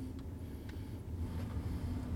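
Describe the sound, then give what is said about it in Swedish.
Car engine during a driving lesson as the driver applies more throttle: a faint, low, steady rumble that swells slightly toward the end, with no talk. “Vill du ha mer fart? Lite mer fart. Ja, då gasar vi lite.”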